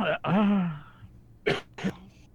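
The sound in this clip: Throat clearing, a drawn-out voiced rasp that sinks in pitch, followed by two short, sharp coughs in quick succession against an otherwise quiet background.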